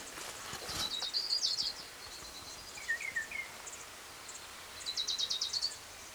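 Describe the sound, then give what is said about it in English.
An orange-crowned warbler sings faint, high, thin trills, with two rapid trilled phrases separated by a brief lower chirp against a quiet background. “Here's orange crowned warbler number two.”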